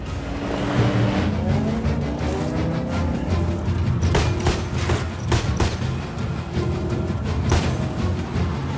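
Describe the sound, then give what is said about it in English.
Roaring car engines and squealing tires from a high-speed chase between a Mercedes and a Jeep. The sound is loud and continuous, punctuated by a few sharp bursts. “The pimp's Mercedes almost rams Brian from the driver's side, but falls back in behind the Jeep.”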